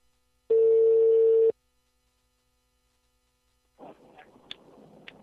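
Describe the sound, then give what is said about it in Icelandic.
A telephone line rings once with a steady, buzzing one-second tone, then silence, then soft line noise as the call connects. “Það hringir.”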